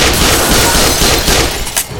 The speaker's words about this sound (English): Anya lifted her left hand and pulled the trigger